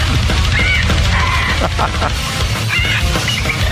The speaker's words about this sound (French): Comment s'appelle l'oiseau qui chante? C'est une perruche. Une perruche, dans ben ce oui. cas-ci. Donc, c'est une perruche qui chante du trash metal.